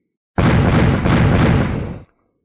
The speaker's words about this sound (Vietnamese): Bốn âm thanh vang lên, bốn cái lệnh bài được cầm trong tay mấy người Bạch Diện Thư Sinh liên tiếp bạo liệt ra, biến thành bột mịn.